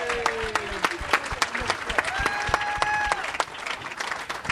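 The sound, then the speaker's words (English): Audience applause for a winning contestant at a live comedy show at SF Sketchfest, a dense, steady clatter of many hands that holds loud and even from start to finish. “Congratulations, Danny, ladies and gentlemen. And let's hear it for Sarah as well.”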